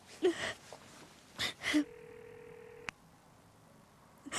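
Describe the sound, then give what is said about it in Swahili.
A telephone ringback tone while calling someone: one steady tone lasting about a second that ends in a sharp click, preceded by a few breathy gasps. “Lazima nimpigie simu Marcel. Lazima nimpigie nimwambie kuwa siwezi kuendelea.”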